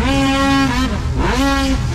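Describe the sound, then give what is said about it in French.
A snowmobile engine roars during a provincial championship race on water at Frampton. The loud, high-revving drone carries a strong harmonic whine that dips and then climbs again in pitch partway through. “Beaucoup d'actions samedi le 8 août lors de la 20e édition du championnat provincial de course de motoneige sur l'eau à Frampton.”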